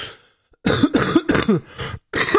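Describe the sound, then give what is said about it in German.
A person coughing hard, a rough fit of about six harsh, throaty coughs coming in quick succession after a brief silence, loud and with no talk over them. “Was ist denn los? Ich habe tagelang nicht so viel gehustet.”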